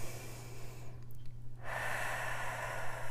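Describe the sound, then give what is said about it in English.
A deep, calming breath drawn in and let out, with soft airy rushes broken by a brief pause, over a faint steady low hum. “So just hold here and take a deep breath.”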